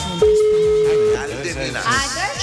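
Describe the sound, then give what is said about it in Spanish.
A steady telephone tone holds for about a second as a call is placed to the Real de Minas neighbourhood, sounding over background music and voices that continue afterward. “Estamos llamando a Real de Minas.”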